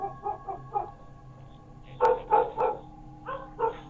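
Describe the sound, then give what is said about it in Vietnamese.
A neighbour's dog barks loudly in bursts, first a few quick lighter yaps, then after a short pause several stronger, louder barks in uneven groups. “Chợt có tiếng nhà hàng xóm, chó nó sủa lên inh ỏi”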